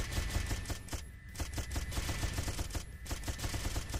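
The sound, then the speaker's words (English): Rapid gunfire: a dense stream of sharp, repeated shots at a fast, steady rhythm, broken by two brief lulls. “It gets a little crazy later. See how slower that gun is shooting though?”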